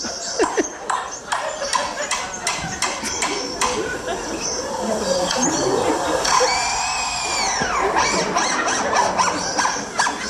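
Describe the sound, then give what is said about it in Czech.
A lyrebird imitates an automatic screwdriver, beginning with a run of sharp mechanical clicks and then giving a whirring whine whose pitch arcs up and then down before it cuts off. “Lirochvost? Počkejte, ještě přijde automatická ta šroubovák.”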